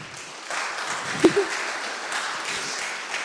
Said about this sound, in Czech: Tak si můžete dát velký potles na začátek, že jste všichni přišli.